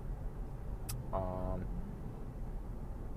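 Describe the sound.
A car cruising in the right lane of a highway gives a steady, low road drone throughout. A brief higher tonal sound rises over the hum about a second in, then fades.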